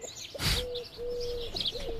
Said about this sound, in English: listen to the birds chirp, the chickens balk, the owls hoot,